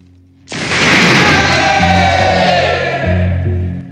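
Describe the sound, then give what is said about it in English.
A crowd standing and cheering in a large warehouse building: a sudden loud roar of voices bursts in and stays strong until the end. “A crowd stand cheering.”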